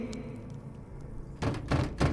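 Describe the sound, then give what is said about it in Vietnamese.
A door is struck hard and shakes: a quieter rumbling stretch gives way to three heavy, booming bangs in quick succession. “Cánh cửa giống như bị ai đó đánh mạnh vào, rung lắc dữ dội.”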